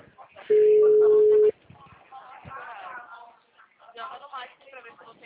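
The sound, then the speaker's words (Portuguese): Telephone busy tone as a call drops: a single steady, mid-low beep lasting about a second, followed by people talking. “ligação parece que caiu. Caiu sim. Caiu, né?”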